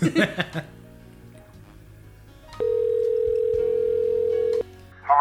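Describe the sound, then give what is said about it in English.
Flat, unbroken dial tone of a rotary telephone, lifted to call the police, sounding for about two seconds at a steady mid pitch. Brief busy sounds come before it and after it. “The phone springs into your hand. Whoa! It's rotary and sentient. I dial the police station.”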